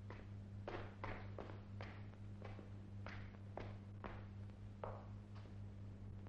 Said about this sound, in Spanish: Sube las escaleras.